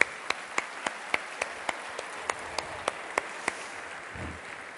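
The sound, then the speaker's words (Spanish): Clapping rings out from an audience at a sales seminar, with many sharp, separate claps in a steady, even rhythm over a low background hiss. “Por eso un aplauso, ¿no?, para todos los grandes vendedores, por favor.”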